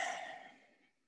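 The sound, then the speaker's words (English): A single deep breath sighs out softly and fades away over about a second, heard alone during a calm, guided relaxation exercise. “I'm taking a nice deep breath in and out.”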